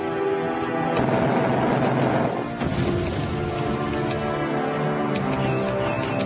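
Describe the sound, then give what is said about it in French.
Explosions as vehicle wrecks are blown up in a Doom-like first-person shooter game: a loud, continuous booming rumble with sharp blast-like bursts running throughout, with no talk. “Mais rien ne vous empêche de vous détendre un peu en faisant exploser des épaves de véhicules qui traînent.”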